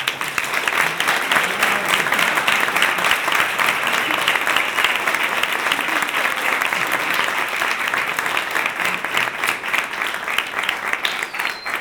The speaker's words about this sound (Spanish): Así que me gustaría a ellos personalmente dar un aplauso porque...